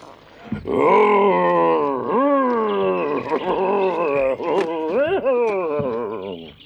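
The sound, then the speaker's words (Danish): A voice imitates a wolf roaring inside a closed barrel: loud, sustained, growling howls with swooping, wavering pitch that continue almost without a break. “Ej, ej, tynden er lukket, og ulven er indeni. Nøj, hvor han brøler.”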